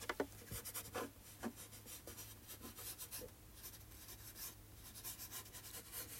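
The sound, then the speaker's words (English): Handwriting with a pen, soft scratchy strokes arriving in irregular little bursts with brief pauses between them, quiet and close throughout. “Let me write it down for you.”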